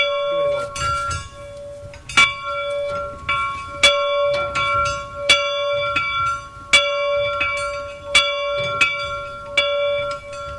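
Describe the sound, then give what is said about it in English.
An old factory bell, about 250 years old and once used to summon workers, is struck many times at a slow, steady pace, each clang leaving a long metallic hum that rings on beneath the next strike. “This is the old factory bell here in Loch Considery. It would call the workers to work, break for break time, lunchtime, and going home in the evenings as well.”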